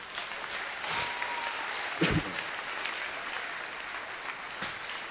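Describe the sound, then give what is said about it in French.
A church audience applauds during a service, a dense, steady wash of many hands clapping at moderate level throughout, with a slightly stronger burst near the middle. “Celui qui donne le secours est présent. Alors acclamons-le.”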